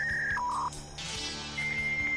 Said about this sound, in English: just bear with us while we dial up